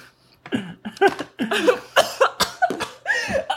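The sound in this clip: Harsh, choking coughs after inhaling a graham cracker, coming as many rapid, loud bursts in close succession with barely a pause between them.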